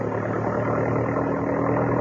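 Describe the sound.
A Jeep engine drives along a road toward the outskirts of a city, giving a loud, steady, low rumbling drone with no pause.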